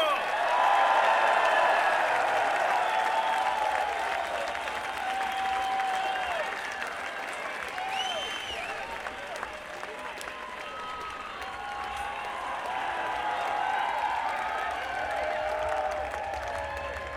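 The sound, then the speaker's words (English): Audience cheering and applauding for the band Mo, with sustained clapping, shouts and whistles that rise and fall in strength throughout. “Everyone, make some huge noise for Mo!”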